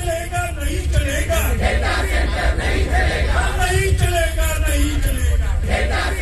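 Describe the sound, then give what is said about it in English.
A protest crowd in India chants and shouts together. Loud massed voices form a dense, continuous wall of sound, with yelled phrases rising and falling throughout. “And we are seeing protests, aren't we, Will, across the world. I've just come back from India and you hear lots of sounds like this.”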